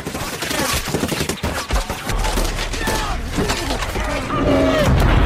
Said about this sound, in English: That was a war movie involving the discharging of thousands of weapons.